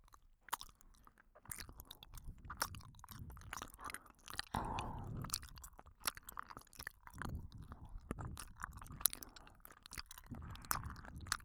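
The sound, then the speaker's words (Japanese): Chewing of gummy candy: many soft, wet, squishy bites and mouth sounds in a steady but irregular rhythm, fairly loud and with no talk. “さっきのカリカリっていう音とは違う音がするんじゃないかな。それじゃあグミいただきます。”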